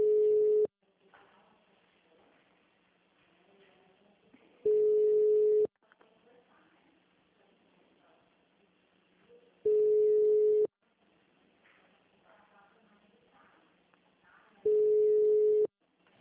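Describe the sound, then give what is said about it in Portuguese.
A telephone line tone after a dropped call: four steady, mid-pitched beeps of about a second each, spaced roughly five seconds apart, with faint low noise in between. “Você foi transferir, caiu a ligação.”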